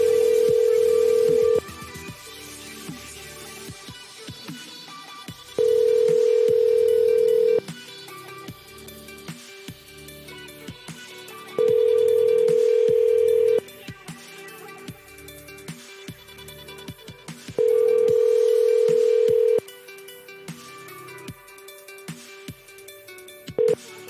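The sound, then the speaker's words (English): Ringback tone on an outgoing telephone call: four long, steady mid-pitched ring tones at regular intervals with pauses between, the start of a fifth at the very end, over continuous background sound. “Come on, Mr. Torres, answer the phone.”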